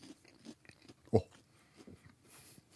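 Crunching bites of an old waffle left out half a day and then reheated in a deep fryer: one loud crisp crunch stands out among softer, scattered chewing noises.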